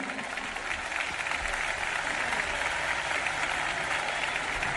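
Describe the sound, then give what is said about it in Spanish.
Audience applause welcoming a female singer on stage at a folk music event, a dense, steady wash of clapping that holds at an even level for the whole stretch with no talk over it. “Un aplauso”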